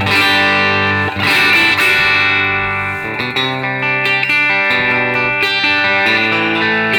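Electric guitar played through a Super Reverb amp with a boost pedal engaged, ringing out overdriven sustained chords and single notes with a thick, slightly distorted tone, loud and alone.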